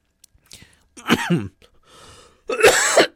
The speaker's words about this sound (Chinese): 今天因为这个感冒，所以有时候会咳嗽